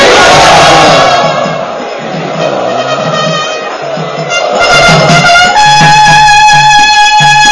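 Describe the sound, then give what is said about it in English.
An audience chants loudly in unison to welcome guests and VIPs at an evening event, a dense roar of voices with rhythmic, repeated shouted beats that stay strong from start to finish. “Let us welcome all of them who are sitting here on these seats by loudly chanting.”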